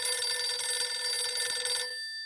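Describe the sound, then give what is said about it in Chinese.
A telephone rings with a continuous bright electronic trill for nearly two seconds, then cuts off abruptly, heard alone. “就在傅作义心烦不解之时，骑兵第四师师长刘春芳从前方打来电话。”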